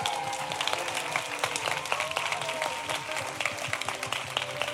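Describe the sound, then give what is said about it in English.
Festival audience applauding at Wilderness Festival, dense, steady clapping that continues throughout with faint crowd noise beneath. “we have to give a huge round of applause and thanks.”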